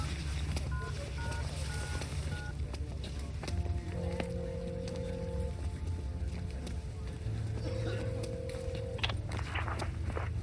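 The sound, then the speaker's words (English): Touch-tone beeps from a telephone number being dialed, a quick run of short keypad tones, followed by two longer, steady ringing tones. “Too good to be true. That's almost as much money as my research stipend. I dialed the number.”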